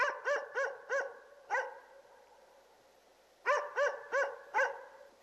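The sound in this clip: A dog barks far away, a faint but clear burst of several quick barks, then a pause, then a second run of four barks.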